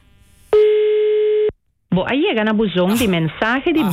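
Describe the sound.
An unanswered telephone call's ringback: one steady, mid-pitched buzzing tone lasting about a second, then a short silence before a voice starts talking.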